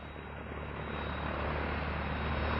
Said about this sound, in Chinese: 系飞行艇。 我同副嘅船啊，佢要降落啊